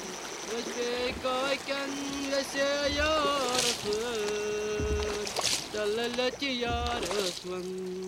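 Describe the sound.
The boatman paddles a boat across the lake to Nishat, and soft low paddle strokes recur at a slow rhythm beneath a man's steady melodic singing.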